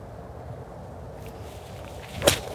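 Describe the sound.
A golf club strikes a ball on the course with one crisp, sharp click near the end, an approach shot toward the green over a bunker, heard above a quiet steady background.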